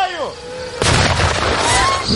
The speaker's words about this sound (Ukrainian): Нині на вишколах армійців постійно дзищать дрони, скидаючи піротехнічну вибухівку та імітуючи підрив FPV.